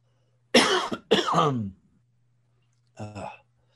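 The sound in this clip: Rough, voiced throat clearing: two harsh coughing bursts close together, a pause, then a shorter third one, over a faint low hum.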